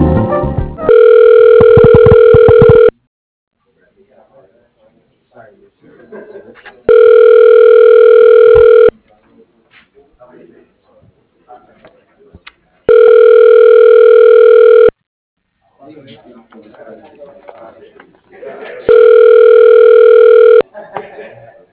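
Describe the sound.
Ringback tone on a telephone line while a call is transferred. Four steady, buzzing rings of about two seconds each, evenly spaced with quiet gaps between them.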